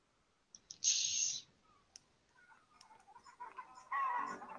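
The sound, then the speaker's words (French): A voice imitating a chicken pressed right up against the microphone: a loud, harsh squawk, then scattered clucking clicks, and a second raspy squawk at the end. “Il y a mon micro, là. Puis là, je joue au poulet collé sur le micro.”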